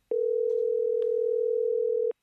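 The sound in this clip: A telephone tone sounds while a call is being placed: one steady, mid-pitched tone holds for about two seconds, with faint clicks at its start and end and nothing else heard.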